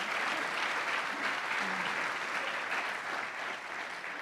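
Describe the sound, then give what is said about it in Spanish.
Applause from a church audience during a bilingual worship service: dense, steady clapping that holds evenly throughout and eases off slightly near the end. “Can we give the Lord a hand of praise in this house?”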